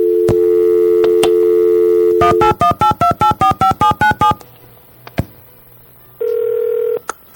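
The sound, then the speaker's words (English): A telephone call attempt: a steady dial tone for about two seconds, then a quick run of about a dozen keypad dialing tones, a pause with faint clicks, and one short loud tone burst. “We were genuinely and sincerely trying to call Graham. I think the dial over here was the wrong way. Let me try it again.”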